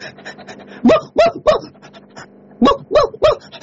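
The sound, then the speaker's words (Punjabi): A person imitates a dog barking, giving six loud, yelping barks in two quick groups of three, with softer sounds between them. “ਮੇਰੇ ਕਿਹਾ ਕੁੱਤਾ ਭੌਂਕਦਾ ਵੀ ਦਿਖਾ ਦੇ ਮੇਰਾ।”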